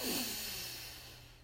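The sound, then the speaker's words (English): A deep breath in, drawn as a soft, airy rush that is loudest at the start and fades away over about a second and a half, with no talking. “So take a deep breath in, breathe in.”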